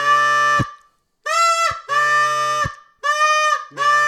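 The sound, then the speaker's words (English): Goose call blown by a person, five loud honking moans with rich harmonics, each ending in a quick downward break in pitch, separated by short gaps; the last is cut off. “And that's achieved by putting voice inflection into a goose call. It's not grunting from the back of your throat. It's using your natural vocal ability to add vocalization”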